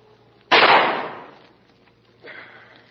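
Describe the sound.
A single loud gunshot cracks out sharply and its echoing tail fades over about a second, followed by a softer, brief noise.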